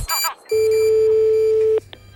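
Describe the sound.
A single steady, mid-pitched telephone tone sounds on an outgoing call to a listener, holding level for just over a second after a brief burst of other sound, then cutting off and leaving a few faint clicks.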